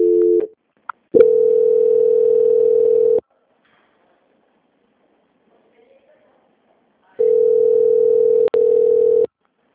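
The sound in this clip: A steady telephone tone sounds while a call is being transferred: a brief tone, then two long, level, low-pitched tones separated by a few seconds of silence.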